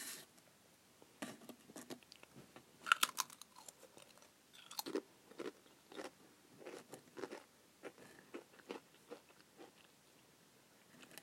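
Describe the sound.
Crunchy chewing while someone tastes food: many quiet, irregular bites and crunches in an uneven rhythm, with no talking.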